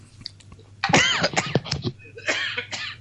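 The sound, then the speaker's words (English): A person coughs several times in rough, uneven bursts over a low steady hum, with a faint click before the first cough and a final cough after a short pause. “Sorry, still coughing away here.”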